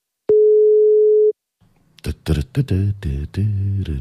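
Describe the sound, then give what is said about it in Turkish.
A telephone call is being placed: one long, steady mid-pitched ringback tone sounds alone, followed by a short pause, and then a voice answers and speech continues. “şuradan şöyle birini arıyorum da şimdi ona bakıyorum şu an. Bekliyorum.”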